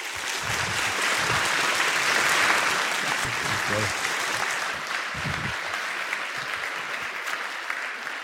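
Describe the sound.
Sustained audience applause at a church gathering welcoming a guest speaker: a dense, even roar of many clapping hands that holds for about eight seconds, with some voices audible underneath.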